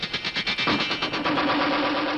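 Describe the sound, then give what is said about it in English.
A van exploding: a rapid run of crackling bursts quickly gives way to a loud, sustained roaring rumble that holds steady to the end. “That sounds about right. Yeah. That sounds like a van exploding.”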